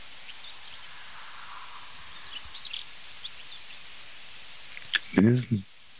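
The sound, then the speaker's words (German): Faint, high-pitched cricket chirps from a field repeat in short bursts throughout, with scattered soft calls mixed in and a brief louder sound near the end. “Die Grille wirst du natürlich ignorieren.”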